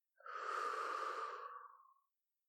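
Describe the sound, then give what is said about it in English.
A single deep breath drawn in through the nose during a lung check, a smooth airy hiss lasting about two seconds that swells quickly and tapers off gently. “Again, breathe in through your nose. One, two, three.”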